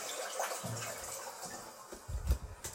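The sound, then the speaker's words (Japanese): A toilet being flushed: a hiss of rushing water with gurgling surges that grows louder toward the end. “ちょっとトイレの水を流すので、ちょっと音量注意で多分うるさいと思うので、すいません、流します。”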